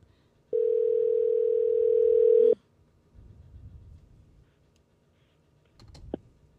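Outgoing call ringing on a telephone line: one steady, fairly low ring tone lasting about two seconds, then near silence with faint rustling and a small click.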